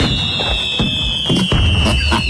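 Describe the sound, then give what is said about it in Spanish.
A fireworks sound effect for a festive village-style celebration: a loud, sustained high whistle that falls slightly in pitch, over a dense run of crackling pops and bangs. “Fuegos artificiales y todo el rollo”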